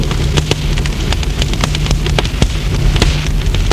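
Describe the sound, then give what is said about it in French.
Fire crackling as twigs burn in a fireplace: many sharp, irregular pops and snaps over a steady low rumble and hiss, continuing throughout. “met le feu à des brindilles.”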